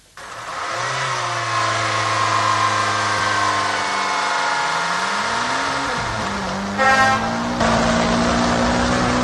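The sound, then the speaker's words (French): A vehicle's engine drones steadily as it drives along National Road 1 at Pitoa in northern Cameroon. The engine's pitch dips and rises midway, and a brief louder burst sounds near the end. “À bord de ce véhicule, à Pitoa, sur la nationale numéro 1, le voyageur a encore une centaine de kilomètres à parcourir pour arriver à Padarmé”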